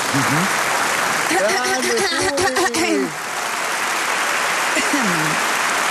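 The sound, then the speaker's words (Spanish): Sustained applause from an audience at a live poetry performance, dense even clapping that fills the whole clip while a voice speaks over it partway through. “Es que la gente está todavía aplaudiendo.”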